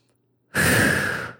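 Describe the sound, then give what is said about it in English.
A single big, deep breath released as a loud, sigh-like exhale that starts abruptly after a moment of quiet and lasts close to a second before trailing off. “Pause with me for a moment and take a big, deep breath.”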